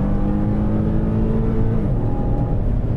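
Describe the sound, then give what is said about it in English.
Steady engine and road drone of a car cruising at 100 km/h in fifth gear, a constant low rumbling hum with a faint higher whine running through it, loud and even with no shifts or revving. “Well, I'm in fifth. That's fourth. Doing 100 kilometres.”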